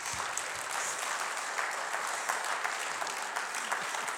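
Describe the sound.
Applause for the Christmas Ballerina act: steady, dense clapping from an audience that keeps an even level throughout, with no voices standing out above it.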